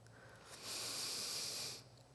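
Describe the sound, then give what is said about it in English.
Soft collective breath of a church audience, a quiet airy hiss that swells and holds for about a second before tapering off over a low background hum. “Before I start with our prayers, though, I want us to take a collective deep breath in”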